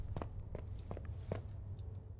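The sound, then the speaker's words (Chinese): Footsteps of an injured adult male character in a video game: quiet, short, shuffling small steps, a few evenly spaced, over a steady low hum. “你们有没有觉得我的脚步声听着太近了？就感觉像小碎步，不像一个成年男子在走路。我受伤了吧？应该是，所以走路脚步声听着这么诡异。”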